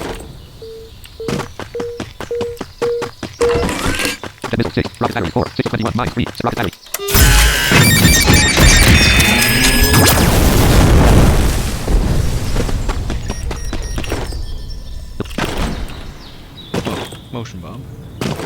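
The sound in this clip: Fireworks rocket battery firing: rapid sharp cracks and pops, then a long, loud, dense roar of crackling bursts and booms that slowly thins out, with people talking throughout.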